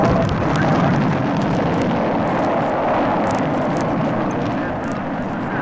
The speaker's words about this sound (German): Liftoff, we have a liftoff, 32 minutes past the hour. Liftoff on Apollo 11.